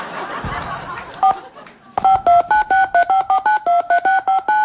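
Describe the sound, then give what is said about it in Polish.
Telephone keypad tones sound as a 14-digit PIN is entered on an automated self-service phone line. A rapid, evenly spaced run of short two-pitched beeps follows a brief muffled, noisy stretch. “Aby skorzystać z serwisu samoobsługowego, wprowadź swój poufny 14-cyfrowy numer PIN.”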